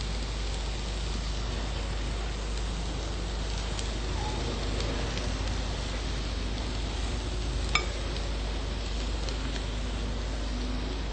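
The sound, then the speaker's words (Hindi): Vegetables sizzle in a pan as boiled peas are mixed and sautéed, giving a steady, even hiss with a single faint clink partway through and no talking. “इसको हम अच्छी तरह से mix कर देंगे और थोड़ी देर के लिए इसको सौते करेंगे।”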